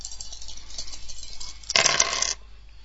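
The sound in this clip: Dice rolled in a computer dice game: a short clattering rattle lasting about half a second in the middle, with near silence before and after.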